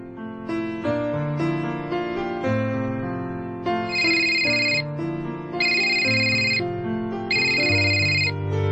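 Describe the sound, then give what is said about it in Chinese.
A melodic electronic telephone ringtone plays loudly without pause, with three bursts of a high, shrill beeping tone layered over the tune. “做咩唔听电话噶？再打过先。”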